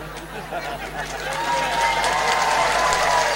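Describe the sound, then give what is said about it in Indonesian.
Audience applause at an Islamic communal prayer gathering: steady, dense clapping from a crowd that holds evenly and swells slightly toward the end. “Ora usah tepuk tangan ora penting.”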